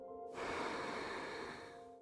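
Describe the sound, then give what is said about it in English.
A long exhale during a guided breathing exercise: one steady, breathy rush of air lasting nearly two seconds, with faint sustained tones underneath. “So you feel your belly filling up with all of your special and unique powers. And then breathe out,”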